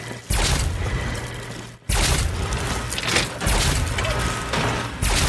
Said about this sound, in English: I'm doing mole rats with the good gun.